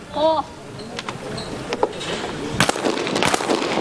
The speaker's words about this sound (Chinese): 印度队的女选手达里瓦尔将进行自己的最后两个叠把的射击，高台的双把